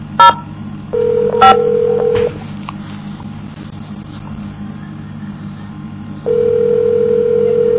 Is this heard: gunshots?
no